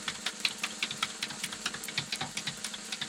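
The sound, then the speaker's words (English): A spinning prize wheel gives off many quick, evenly spaced ticks, each a crisp click from the pegs, in a steady rattling rhythm with no talk over it. “Oh, that wheel can really spin. It keeps on going, hey?”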